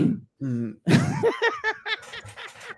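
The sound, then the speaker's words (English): A voice imitates a character's throat clearing: a few short, rough, gravelly bursts, then more growly voiced sounds. “It is a clearing of the throat that he does.”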